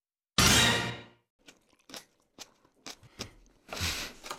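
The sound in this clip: Someone biting into and chewing a tomato in a studio: one loud juicy crunch, then a run of soft, wet chewing clicks and smacks, ending in another louder mouthful.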